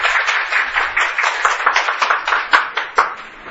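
Students in a humanities lecture clap on cue during a chorus reading of a Greek tragedy, a dense, steady patter of many hands with a few sharper, louder claps standing out near the end.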